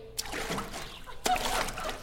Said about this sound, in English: Or you can do some laps around the pool. This is great exercise. Here we go.